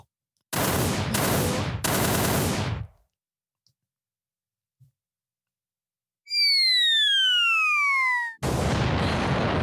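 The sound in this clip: Gunfire sound effect opening a comedy segment called Shots Fired: three loud bursts of rapid shots, a pause, high whistling tones sliding downward, then another heavy burst of fire.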